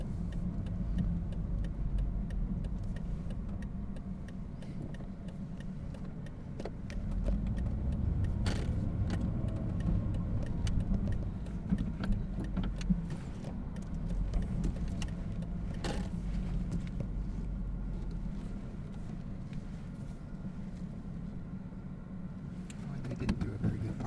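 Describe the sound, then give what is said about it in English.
Steady low engine rumble and road drone from inside a car as it pulls in to park in front of a van, holding level throughout with a few faint ticks and rattles on top. “I'll just park in front of that van there.”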